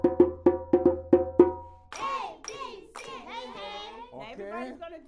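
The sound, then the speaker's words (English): Hands clap in a quick, sharp series at the start, then stop as a child begins talking. “You have to clap your hands with that.”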